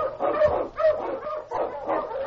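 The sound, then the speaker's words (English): Barking of a Malamute sled dog, an Eskimo lead dog: several rough, rhythmic barks and yips over a continuous noisy background. “A thing on you, Malamute! The Wonder Dog King, swiftest and strongest of Eskimo lead dogs, blazes a trail through storm and snow for Sergeant Preston”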